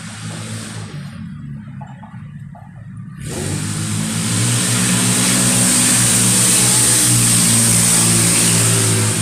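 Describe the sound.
A car engine revs loudly at a red light: a low, rumbling idle swells after a few seconds into a sustained, roaring rev with strong harmonics, with no voices over it.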